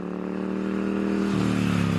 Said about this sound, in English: It's the sound of one of the most iconic British brands. But for years, Norton motorcycles were silent.